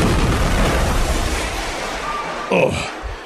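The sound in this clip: An explosion blast sound effect, set outside a plane during a hijacking struggle, is heard as a loud, broad roar that fades steadily over about two and a half seconds. A brief voiced exclamation comes near the end.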